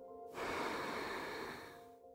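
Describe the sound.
A slow breath out during a guided breathing exercise, a soft, even rush of air lasting nearly two seconds that fades away at the end.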